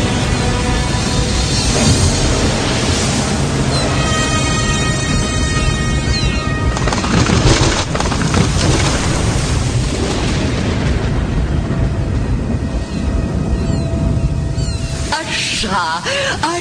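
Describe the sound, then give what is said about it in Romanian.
A storm at sea with crashing waves, as a fishing boat is driven toward sharp rocks. A loud, dense, continuous roar carries deep booms, with a few sustained tones running through it. “Furtuna asta este binevenită. Peștilor nu le pasă de vremea rea, dar șalupa o să se sfărâme de stâncile acelea ascuțite.”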